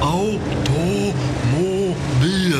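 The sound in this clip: An early automobile's engine rumbles steadily as the car drives, a low continuous drone under animated talking voices.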